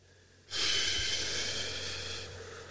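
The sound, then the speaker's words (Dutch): A slow, breathy exhale during a guided breathing exercise starts abruptly and streams out as one long, soft airy rush that gradually tapers away. “En we beginnen uit te ademen.”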